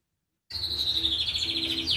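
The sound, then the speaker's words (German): Birds chirping in an aviary that houses a cockatoo: a bright, steady stream of high, piercing tweets starts abruptly and continues without pause. “In der Vogelvoliere streckt Eva Maria Sum einem Kakadu Nelson einen Kürbiskern her.”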